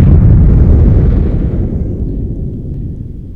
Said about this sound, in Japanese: しかも地球は爆発したの後にバーンって今音が入ったけど